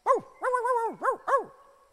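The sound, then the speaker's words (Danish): Puppies yip and whimper in four high, arching whine-like calls, the second drawn out longer than the others. The calls are moderately loud and heard alone. “Kan du gætte, hvad det er? Sikke nogle søde valpe. Det er rigtigt. Det er en hund.”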